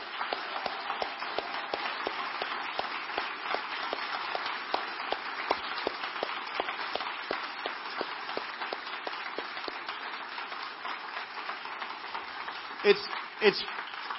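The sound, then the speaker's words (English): Church audience applauding to honor a group for their sacrifice: dense, steady clapping holds at an even level throughout, with a couple of louder bursts near the end. “And so let's honor them as we just cheer them on for their sacrifice.”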